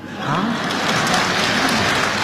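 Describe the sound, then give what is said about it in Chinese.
Dense, steady applause from the audience at a stage comedy show in Beijing, a loud, even wash of many hands clapping that holds throughout. “说实在，大家鼓掌还有一方面意思。”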